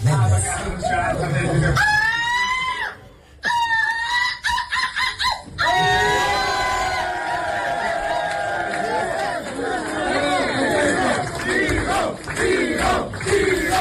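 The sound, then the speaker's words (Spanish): An audience chants the name Vigo as a contestant is crowned runner-up. The massed voices are loud and sustained, drop out briefly in short breaks, then surge back in a long unison chant. “A ver, el público, Olga, acaba coreando el nombre de Vigo, Vigo.”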